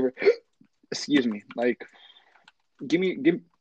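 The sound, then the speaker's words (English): Hiccups from a person who has them, a few short, abrupt voiced bursts separated by brief pauses, fairly loud. “I have the hiccups”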